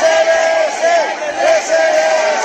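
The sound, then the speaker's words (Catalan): Wedding guests shout cheers for the newlyweds outside a church, a loud crowd calling out in repeated bursts with a strong sung, vowel-like tone that rises and falls between short gaps. “Al final, els clàssics crits de visca els nuvis a la sortida de l'església,”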